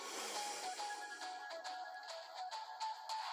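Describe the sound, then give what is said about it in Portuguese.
Breath let out slowly through the mouth during a breathing exercise, a long, even airy rush lasting the whole clip over soft, sustained tones. “Segura. Solta o ar pela boca.”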